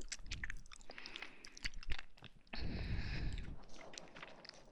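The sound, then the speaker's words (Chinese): Chewing food in small bites, with soft crunching and biting noises coming in a few irregular bursts, faint and close. “慢慢的吃，一小口一小口的吃，就不会噎着了。”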